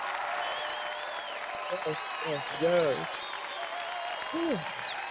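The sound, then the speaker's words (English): Applause rolls on as a steady, even hiss of many hands clapping, with a man talking over it in short phrases. “But I'm going to give myself a round of applause. As soon as I can figure out where the applause is.”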